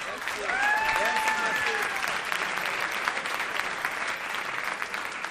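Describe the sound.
A group applauds on cue, a continuous clatter of clapping with raised voices cheering over the first couple of seconds before the clapping carries on alone.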